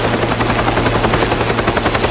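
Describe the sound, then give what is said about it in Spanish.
A helicopter approaches a ship with loud, rapid, steady rotor thumping over a constant low engine drone, and no voices are heard. “¡Están llegando! El helicóptero se acerca al barco.”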